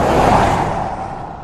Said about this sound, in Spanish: Mira por el espejo retrovisor ese coche que nos está adelantando.